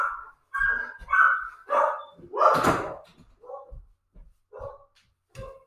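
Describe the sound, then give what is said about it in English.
Several household dogs bark as their owner arrives home, giving a run of sharp, loud barks followed by quieter, shorter yips and woofs spaced apart. “Sorry if you can hear my dogs barking. Their dad just got home.”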